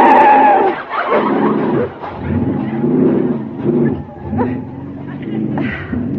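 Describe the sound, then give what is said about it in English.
Manual-transmission car pulling away as the clutch is let out slowly and smoothly, a continuous low engine drone running under people talking throughout. “Now here we go. Let the clutch out very slowly and smoothly.”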